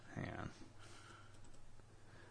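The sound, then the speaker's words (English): Typing on a computer keyboard to search YouTube: after a brief voice, faint, quick key clicks follow in an uneven run. “So, you got YouTube up. Type in Brondo TV commercial.”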